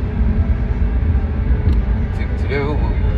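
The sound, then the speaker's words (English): A car drives along with a steady low road rumble and engine drone that runs through the whole clip under people talking. “So, we're driving back to open space area now.”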